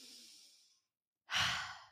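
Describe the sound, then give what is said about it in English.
Deep, slow breathing: a long airy breath fades out, a short silence follows, then a louder, fuller breath rushes out and tapers away. “let's just breathe in what's in alignment for us and breathe out what's out of alignment for us.”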